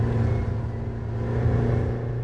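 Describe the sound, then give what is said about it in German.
A racing car driving flat out down the home straight at about 280 km/h: a steady, dense, low engine drone with humming harmonics and no clear rise in pitch, with no voices. “Heinrich Weiß gibt Gas.”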